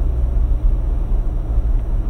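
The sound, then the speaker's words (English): Steady low rumble of a car driving along a road, a loud, continuous drone of engine and tire noise that holds even throughout, with no voices and no distinct separate events. “I'm driving here on a road that costs millions of dollars, lined by power lines and electric poles,”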